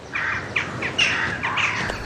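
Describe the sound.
A female common kestrel calls near her nest overlooking buildings in late spring: several short, high, sharp chirps spaced unevenly over two seconds, fairly faint against a soft background hiss.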